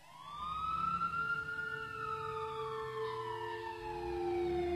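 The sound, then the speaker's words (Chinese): A police car siren wails in a long, loud, continuous tone whose pitch glides slowly downward over several seconds, with no voices over it. “警笛声，杂乱的脚步声，老于办公室的门几乎是被撞开的。”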